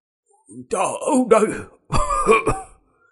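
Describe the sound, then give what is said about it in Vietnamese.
Harsh, rasping coughs in an old man's voice, acted out by a voice performer, come in two loud, voiced bursts with throaty groaning tones and a short gap between them. “Không đợi hết câu, lập tức tiếng ho khan nổi lên kịch liệt.”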